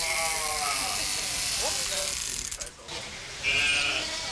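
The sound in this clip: Electric clippers buzz steadily as Heidschnucke sheep are sheared one after another at a wildlife park, a mechanical whirring hum running under a man's talk.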